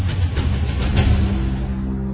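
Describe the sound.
A car engine runs with a loud, steady low rumble and a mid-pitched drone as the car pulls away.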